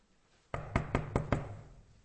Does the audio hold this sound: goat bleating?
no